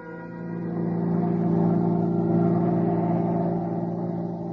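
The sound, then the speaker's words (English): Steady car engine drone from a vehicle driving along a parkway on an autumn night, a low, even hum with strong harmonics that swells slightly and holds without a break, no voices. “We were driving home, Jane and I, driving along the parkway, enjoying the autumn night.”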